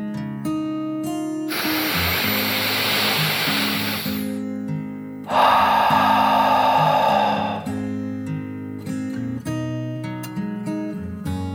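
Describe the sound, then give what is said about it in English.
A deep breath is drawn in and then let out, heard as two long, loud, airy rushes of several seconds each over a steady musical backing. “She took another deep dragon breath in and out.”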